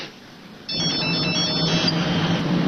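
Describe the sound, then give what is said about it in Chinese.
A telephone ringtone sounds after a call is placed, starting abruptly after a short quiet lead-in and then ringing steadily and loudly to the end. “我就不信这事，我给常贵打个电话。 你用这个打。”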